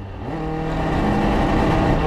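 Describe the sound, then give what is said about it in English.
A car engine drones loudly and steadily as the driver shifts up to fifth gear on a straight. Its harmonic tone climbs early on, then holds at high revs. “video view on the straight shifting to fifth”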